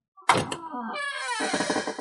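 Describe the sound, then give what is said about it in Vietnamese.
A wooden door opens with a brief knock-like thump, then a long, drawn-out creak that rises in tone and rasps on, moderately loud and with no talk over it. “Âm thanh mở cửa gỗ vang lên, Liễu Minh”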